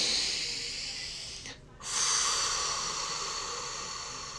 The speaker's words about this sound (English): Take a deep breath.